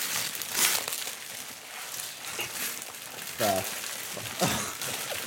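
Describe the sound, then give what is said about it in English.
A gift wrapped in layers of duct tape is torn open, giving a continuous crinkly rustle broken by louder crackling rips. A voice briefly sounds over the unwrapping. “Can we open them up? Now? Open them up. All right. This duct tape is really... Oh, no, it's fine. Oh, great wrapping here.”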